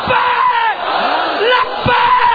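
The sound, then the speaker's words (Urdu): Massed voices of a crowd at a religious gathering chanting the slogan Labbaik ya Rasool Allah, loud and sustained, with drawn-out shouted syllables rising and falling together. “نعرہ لگاؤ لبیک یا رسول اللہ”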